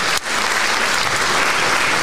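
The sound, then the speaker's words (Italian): Audience applause at the Musicultura 2023 auditions in Macerata, a loud, dense wash of clapping that briefly dips at the start, then holds steady and even. “L'applauso che avete sentito e che sentite di nuovo, vi prego, è quello del pubblico. Del pubblico delle audizioni di Musicultura 2023.”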